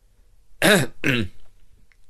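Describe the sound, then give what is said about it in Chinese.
Two short throat-clearing coughs from a refined young man come as a pair of rasping bursts close together, then quiet. “斯文的男生咳了两声，一本正经的说”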